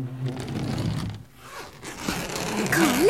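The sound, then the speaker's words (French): The zipper on a suitcase is pulled open, giving a continuous raspy, scraping drag that dips briefly in the middle and then grows louder and denser toward the end. “La valise a fini par s'ouvrir.”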